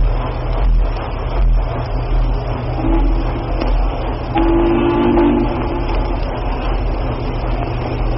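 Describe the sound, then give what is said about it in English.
Two sustained low whistle blasts sound during a 1936 Boston Red Sox at Chicago White Sox baseball game, over heavy crackling noise and a constant hum. “That's a new whistle. We're not acquainted with that one.”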